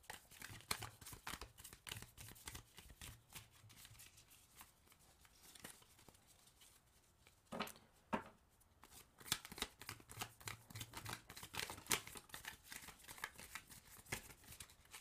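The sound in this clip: A deck of crystal gemstone cards being shuffled: many crisp, rapid card flicks and riffles run steadily through the whole clip, with a couple of sharper snaps midway, quiet and without talking.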